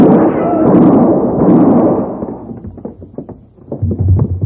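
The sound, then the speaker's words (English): Gunshots in a radio drama: a dense rumbling burst of noise gives way to a rapid series of sharp, loud cracks. “Don't move, gentlemen. He's got a gun. Get him. Hit the floor, Alice. Drop that.”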